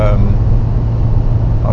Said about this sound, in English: I've just left home. I just entered the highway, and I have about depending on where I go, I'm not quite sure yet, but I probably have about 40 minutes of drive in front of me.